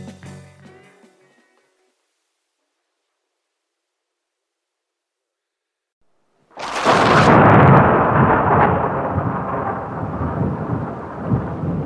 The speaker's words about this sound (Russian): Ночь. Гроза.